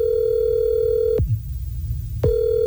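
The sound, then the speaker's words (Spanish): A telephone gives a ringing tone as a call is placed. A steady, loud low tone holds, cuts out for about a second, then resumes. “Está marcando,”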